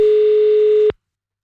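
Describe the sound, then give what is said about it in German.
A telephone dial tone on a call attempt: one steady, mid-pitched continuous tone held at constant loudness for just under a second, then cut off abruptly into silence. “du musst nochmal anrufen. Ich kann anscheinend nicht anrufen. Du hast wahrscheinlich eine Sperre drin für anonyme Anrufe.”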